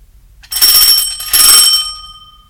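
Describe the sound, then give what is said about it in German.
A front-door doorbell rings with two bright, high chime tones, the second following shortly after the first and trailing off in a fading shimmer, with no talk around it. “Am Freitag klingelt Herr Müller an der Haustür von Familie Wünsch.”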